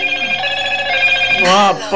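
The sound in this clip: A telephone rings with a steady, sustained electronic tone. Near the end a louder burst and a voice break in over it.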